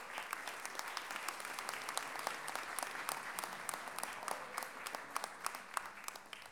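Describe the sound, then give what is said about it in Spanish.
Audience applause at a feminist gathering, a dense, steady patter of many hands clapping throughout, moderately loud with no voices on top. “Un aplauso para ustedes también.”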